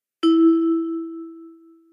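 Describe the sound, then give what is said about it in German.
A single clear ding rings from a service bell on a hotel lobby reception desk. The bright metallic tone starts sharply and then fades slowly over about two seconds. “Klingel. Dafür ist sie doch da.”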